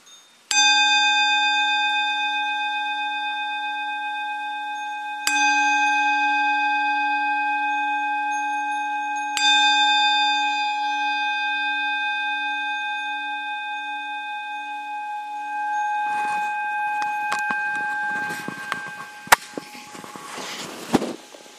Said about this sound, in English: Okay, so again, listen to the sound of bell.